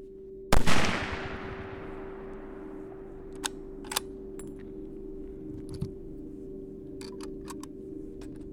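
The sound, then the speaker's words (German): A single loud gunshot from a hunting rifle or revolver gives a sharp crack with a long decaying tail. A few faint clicks follow over a steady low hum. “Wir schossen mit einem Jagdgewehr und einem Revolver, und nach dem Schießen hatte ich noch größeren Respekt vor diesen Waffen.”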